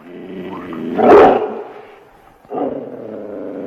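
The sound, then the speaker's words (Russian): A dog barks twice, each a deep, rough, loud bark trailing into a low growling tone. There is a short quieter gap between the two barks. “А это наш пес Цезарь.”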